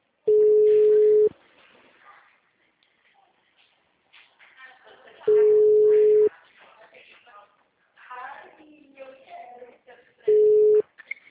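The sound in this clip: A telephone busy tone sounds after a dropped call. It comes as three steady, mid-pitched tone bursts spaced several seconds apart, with quieter sounds in the gaps between them.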